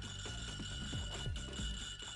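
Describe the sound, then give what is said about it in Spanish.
A phone playing a recording of an anise liqueur bottle scraped as a Christmas instrument: a steady ringing, slightly metallic tone runs throughout, with a few short rasping strokes along its length. “La botellita. Bueno, no, en realidad es el móvil. Le pones la música y le das. Caray. La botellita de anís.”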